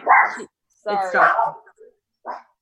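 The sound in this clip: A dog barks during a FaceTime call, giving a few short, yelping, high-pitched barks with brief silences between.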